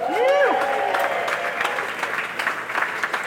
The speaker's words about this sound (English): Our first guest that I'd like you to put your hands together is for Aaron Pye's wife, Cher Pye.